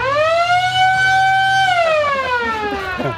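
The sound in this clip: A car horn set up to mimic a police siren gives a loud, steady wailing tone that rises slightly, holds its pitch, then sweeps down in a long falling wail.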